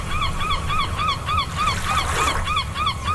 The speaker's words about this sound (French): La mouette est un palmipède qui vit en poésie. Entre culture et confiture, comme Paul Verlaine, vous aurez entendu son cri.